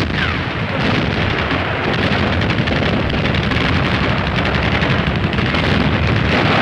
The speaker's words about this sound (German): Ein mörderisches Feuer empfängt uns. Artillerie, Pack, Flak, Granatwerfer und MG von drei Seiten.